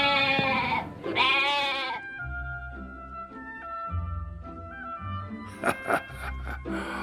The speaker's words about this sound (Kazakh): Екеуі тағы біраз жүрген соң шалғынды жайлаған ешкілерді көреді